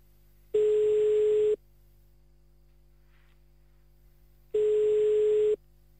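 A telephone line tone sounds while a call is placed: two steady, mid-pitched tones, each about one second long, separated by several seconds of near silence.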